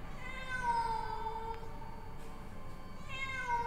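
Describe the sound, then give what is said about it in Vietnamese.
A cat meows eerily with long, drawn-out, wavering cries, a few chilling wails that rise and linger over a faint background hiss. “Đột nhiên, quanh đây văng vẳng, tiếng mèo vang lên. Tiếng mèo kêu, nghe đến rợn cả người.”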